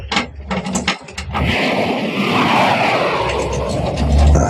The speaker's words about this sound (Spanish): Llega otro avión. Y van varios ya.